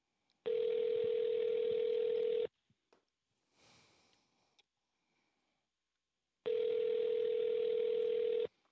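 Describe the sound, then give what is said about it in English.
Ringing tone of an unanswered telephone call: two steady tones about two seconds long, separated by roughly four seconds of near silence with a few faint small noises. “See, this is why I hate radio. People don't answer the phones. I answer the phone here.”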